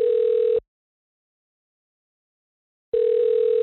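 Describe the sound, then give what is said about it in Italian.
Telephone ringback tone as a call is placed, two steady mid-pitched beeps separated by a long silence, the second beep ending in a brief click. “andiamo a chiamare Massimo”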